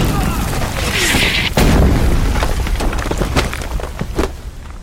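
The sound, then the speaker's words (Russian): A heavy artillery gun firing at German troops in a wartime film battle scene, a loud, deep boom amid crackling, splintering debris and rumbling noise. “Иванов наводит орудие, стреляет, попадает по немцам.”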